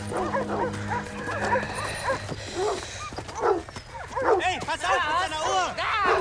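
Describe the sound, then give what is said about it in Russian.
A dog barking as it is set on a prisoner: sharp yelping barks that grow denser and louder in the second half, mixed with voices and other commotion. “На пленного спускают собаку.”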